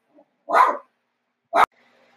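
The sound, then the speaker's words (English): Dogs barking: two sharp, separate barks, the first fuller and longer, the second short and clipped, with quiet between them. “Ugh, sorry about my dogs.”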